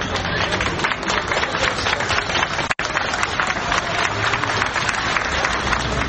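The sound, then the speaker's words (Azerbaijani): Outside a courthouse, a crowd claps in support of defendants on trial. Many hands beat out a dense, continuous clatter that stays fairly even throughout. “Məhkəmə önünə toplaşanlar təqsirləndirilənlərə dəstəklərini əl çalmaqla bildiriblər.”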